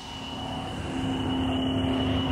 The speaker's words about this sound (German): Dann werfen wir die Kiste mal an. Die dürfen in der Plexikuppel nichts von unserem Start mitbekommen. Kannst du mit gedrosselten Triebwerken starten?